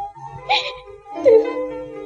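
A person crying in a dramatic scene lets out two drawn-out, wavering wailing sobs separated by a short pause.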